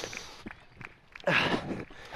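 Footsteps of a person walking along a running race course in a park, with a few faint, soft steps followed by a louder, rougher burst of sound.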